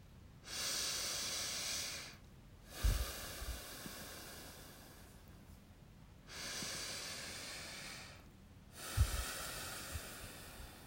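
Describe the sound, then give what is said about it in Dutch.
Slow, deep breaths drawn in through the nose during a guided breathing exercise: long airy hisses that swell and fade, separated by short quiet pauses, with a few faint low thumps. “Adem 2 keer in via je neus.”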